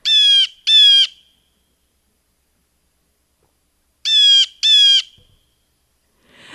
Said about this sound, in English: First, we're going to listen to some blue jay calls.